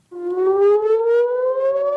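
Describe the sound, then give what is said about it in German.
Air raid siren wailing in northern Israel, starting abruptly and holding a loud, harmonic-rich tone that rises slowly and steadily in pitch over two seconds, with no voices. “Von Waffenruhe ist im Norden Israels seit Wochen nichts zu spüren. Immer wieder heulen die wahren Sirenen.”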